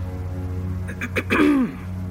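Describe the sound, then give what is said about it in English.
A woman clears her throat once: a short, rough rasp that ends in a brief voiced tone falling in pitch, set over a steady low hum. “Madame Lafour cleared her throat for a second time”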